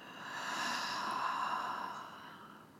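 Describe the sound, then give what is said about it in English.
A deep exhale follows a full breath drawn into the lungs and belly. The soft, breathy rush swells and then slowly fades, heard alone without any talk. “Let it fill up your lungs all the way into the belly. And then exhale.”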